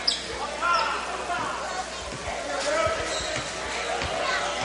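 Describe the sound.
A basketball being dribbled at the free throw line during a game: a steady run of many dull rubbery bounces under a commentator's voice and low crowd noise.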